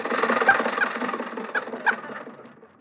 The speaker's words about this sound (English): Jack and Mary are on their way to the studio. Rochester is driving.